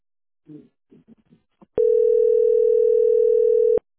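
A telephone dial tone sounds while a call is being placed. A few faint, murmured syllables come first, then a loud, steady single-pitch tone holds for about two seconds before cutting off abruptly.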